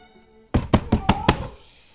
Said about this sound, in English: runs up on the wooden porch and bangs on the front door in a fearful panic